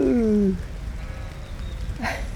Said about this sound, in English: Oh, look. Oh, that's one of my ewes. With her lambs.